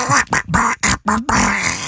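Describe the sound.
Voice imitating a cartoon duck's quacking: about six rapid, raspy, nasal bursts in quick succession, the last one longer and drawn out.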